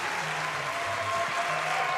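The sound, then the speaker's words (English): Sustained applause from a live audience greeting Howard Schultz in Seattle, a dense, steady clatter of clapping with no pauses. “They didn't think you would be here. That's why they cheered so loud. They could not believe you walked out. They were just amazed.”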